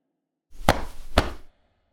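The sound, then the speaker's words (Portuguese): Body percussion with hands clapping and slapping the chest: two sharp, bright smacks about half a second apart over a short, dull thumping burst, moderately quiet and alone without talk. “batendo palmas, batendo com as mãos no peito”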